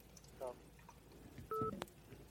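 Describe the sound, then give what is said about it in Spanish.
A faint electronic telephone tone sounds from a phone call: a short, steady two-pitch beep that rises briefly above a low, hissy background, with a few other faint, brief blips around it. “La llamada salió en la grabación, parece.”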